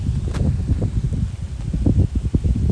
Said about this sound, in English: Oh, a nice little breeze coming through.